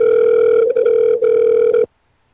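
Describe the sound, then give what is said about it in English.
A telephone ringing: one loud, steady electronic ring tone, flickering briefly a few times, then cutting off abruptly into silence. “Kara, answer my phone.”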